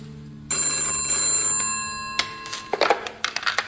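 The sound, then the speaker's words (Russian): A telephone bell rings with a sustained, steady ringing tone held for under two seconds, then gives way to a series of sharp clicks and knocks. “Гашкин позвонил майору Ушакову”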